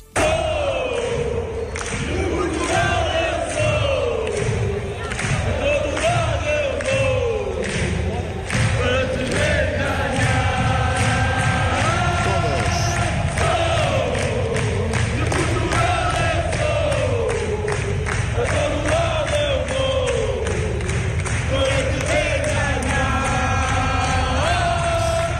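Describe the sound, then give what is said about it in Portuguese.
Portuguese football fans in the Euro 2024 stands chant "De Portugal Eu Sou", a loud, continuous mass of voices singing a repeating melodic phrase over a steady thumping beat. “há um cântico português que está a dar nas vistas em pleno europeu, chama-se De Portugal Eu Sou, é um cântico português que faz furor no Euro 2024 e nas bancadas ouve-se assim.”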